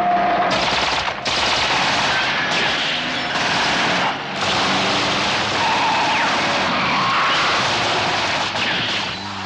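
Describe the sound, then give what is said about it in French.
Rapid gunfire from a van aimed at the presidential car at dusk: dense, loud volleys of shots running almost continuously, broken by a few short gaps. “Et ils n'ont pas tiré en l'air, les types. Attention, ils ont tiré.”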